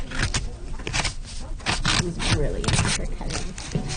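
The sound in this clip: Scissors cutting as a child works on library crafts, a series of crisp, rasping snips that come in quick bursts at an uneven rhythm.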